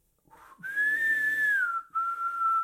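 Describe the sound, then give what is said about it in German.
A man whistles an opera aria in clear, breathy tones: one long sustained note, then a short break before a steadier, slightly lower note. “Sein wohltönendes Pfeifen klingt wieder auf, fein mossiert, sehr luftreich prustend”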